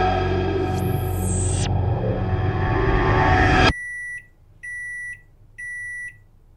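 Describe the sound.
An electronic timer rings with three bright, high beeps in an even rhythm, separated by short silences, after a dense burst of noise cuts off abruptly.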